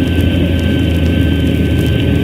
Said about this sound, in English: Flight 35, prepare for landing. Flight 35, preparing to land. Wing flaps down. Wing flaps down. Down landing gear. Landing gear down.